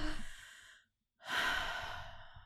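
A person takes a deep breath, heard as two long, airy breath sounds with a brief silence between them. The breaths are soft and quiet, with no talk over them.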